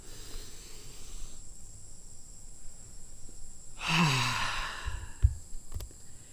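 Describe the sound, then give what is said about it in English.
One deep breath drawn in and then held, heard as a single breathy rush of about a second. Quiet follows, with a faint steady hiss underneath and a soft click. “take a big, big, big deep breath in and hold it for a second.”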